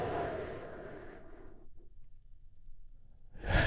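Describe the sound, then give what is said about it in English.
A deep breath during a guided relaxation, heard as a long, soft, airy rush that fades out over about a second and a half, followed by near silence and the start of another breath at the end. “Take one more big, deep, healing breath with me right now.”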